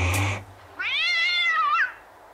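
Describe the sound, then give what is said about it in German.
A tomcat gives a single drawn-out, wavering meow as a fox catches it, after a short burst of noise. “Bis der Scheißfuchs eines Tages den Kater erwischte.”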